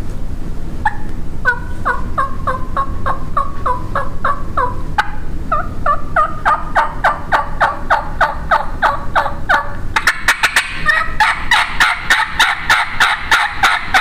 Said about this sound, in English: it'll show you too that there's about 300 million different sounds in yelping. No two hens, for example, she can do so many things with her voice.